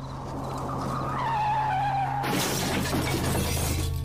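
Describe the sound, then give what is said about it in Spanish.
A car that braked at speed skids out of control with a rising tire squeal, then slams into an old roadside post in a sudden loud crash of shattering, scattering debris that keeps rattling afterward. “Viró sin control hasta que a unos metros encontró de frente un viejo poste en el que se estrelló.”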